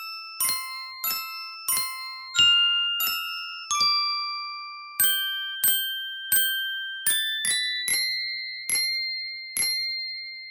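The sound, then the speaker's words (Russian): An invented winter instrument, an icicle-phone, is struck note by note, giving bright bell-like tones that ring and fade; many single strikes form a slow melody, alone and with no voices. “Сосулька-фон – уникальный зимний инструмент.”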